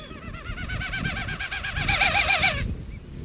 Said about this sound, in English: During a swooping aerial display, this snipe spreads its special tail feathers and beats its wings to force air across the tail.